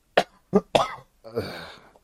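A person coughing while holding their nose: three short, sharp cough bursts in quick succession, then a longer, rougher, throaty cough trailing off, fairly faint, with no talk.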